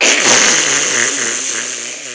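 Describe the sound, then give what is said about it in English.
A fart in a bathtub gives a loud, buzzy, sputtering blast that runs steadily for about two seconds, rough and noisy with a low, wavering rumble underneath, fading slightly toward the end. “sorry, I farted it. What a weird jet in the tub that was.”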